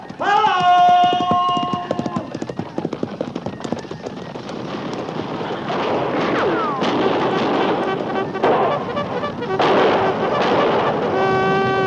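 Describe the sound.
A cavalry charge at the gallop, with many horses' hooves pounding in a dense, rapid, loud drumming that runs almost without pause and builds into a heavy, rumbling roar.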